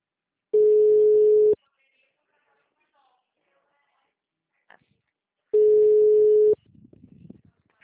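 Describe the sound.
A telephone line tone plays during an outgoing call: two steady, pure mid-pitched tones, each about a second long, separated by several seconds of near silence, followed by faint scratchy line noise.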